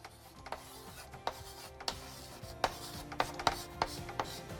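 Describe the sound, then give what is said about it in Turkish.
A pen writes on paper in a faint, irregular series of short scratching strokes, with many quick rasps and no voices. “Üçüncü maddeyi hemen yazıyorum.”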